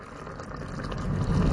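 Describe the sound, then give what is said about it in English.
Cheese bubbling over potatoes in the oven gives off a dense, crackling, bubbling hiss that grows steadily louder through the moment, with no voices. “Or potatoes overflowing with cheese just bubbling in the oven.”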